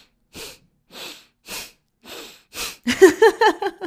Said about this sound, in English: you'll inhale and then exhale very sharp, like sucking in your stomach. So it'll be... It'll sound like this.